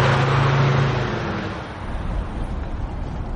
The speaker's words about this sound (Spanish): Asher entra en el vehículo y el hombre le entrega el documento. Más tarde circulan por una carretera y el joven mira por la ventana.